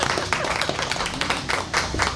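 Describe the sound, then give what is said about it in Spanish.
Spontaneous applause breaks out in the studio, a brisk patter of claps with crisp individual hits standing out from a steady rattle, moderately loud for a couple of seconds. “Un aplauso para ahí. Hasta un aplauso espontáneo, qué maravilla.”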